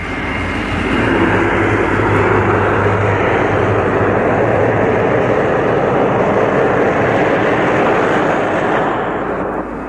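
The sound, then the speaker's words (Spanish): A steady, loud roar of an aircraft taking off swells up in the first second, then holds as a broad, even rumble with little change in pitch, with no voices heard. “Despegue cuando vea la luz verde y buena suerte.”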